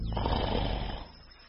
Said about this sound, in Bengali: তারপর আমার বিছানায় শুয়ে নাক ডাকিয়ে ঘুমোতে শুরু করলেন।